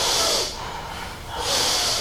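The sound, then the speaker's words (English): Fast, forceful breaths drawn into the chest during a breathing exercise: two loud, airy, hissing inhalations at the start and end, with a quieter stretch between them and no voices. “start breathing long and the fast breath into the chest. Long and the fast breath into the chest.”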